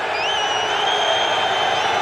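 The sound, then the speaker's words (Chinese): German football fans in a World Cup stadium make a dense, steady crowd roar of jeering, with thin high whistles cutting through it throughout. “现在现场观众啊，世界杯比赛看到现在已经踢了33场，也知道这些新规了，也都在场边盯着这个球有没有发出来尤其德国球迷刚才在嘘。”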